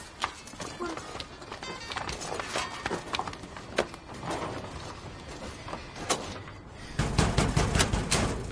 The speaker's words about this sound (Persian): چته چرا درو داری از جاش میکنی؟